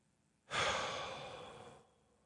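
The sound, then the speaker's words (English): A single deep breath, heard as a soft, breathy whoosh that starts suddenly after a moment of quiet and fades over about a second, with no talking. “sometimes I do that, just take a deep breath in through the nose, out through the mouth”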